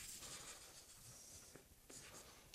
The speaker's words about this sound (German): hier schreibe ich einfach nochmal das Gleiche hin